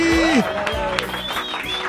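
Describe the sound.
Audience applause for a radio morning show co-host, a loud, steady wash of clapping from a crowd that holds at an even level throughout.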